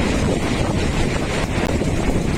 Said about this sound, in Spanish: Reventones como el que estaban escuchando en la zona de Espinardo en Murcia o en Mazarrón.